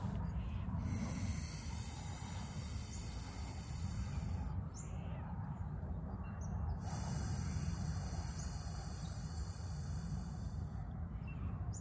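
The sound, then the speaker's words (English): Soft, airy nasal breathing during alternate nostril breathwork, slow inhalations and exhalations through one nostril at a time, steady and faint over low background noise. “We're going to breathe in that same nostril, breathe out the other nostril. Let's do this for one minute to two minutes.”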